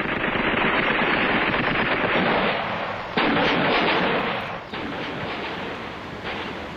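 Artillery and gunfire aimed at blocks of flats during street fighting in Vienna: a dense, continuous crackling roar of firing, loud throughout, with a few abrupt jumps in loudness where fresh volleys start.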